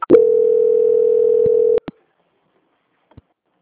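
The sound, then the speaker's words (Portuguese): A steady, mid-pitched telephone tone sounds during a call transfer, holding unbroken and fairly loud for almost two seconds before cutting off into a couple of sharp clicks, then near silence with a few faint ticks. “Eu peço que você aguarde um minuto na linha, que eu vou transferir para o setor de qualidade para fazer as últimas confirmações, tá? Só um minutinho. Transferência.”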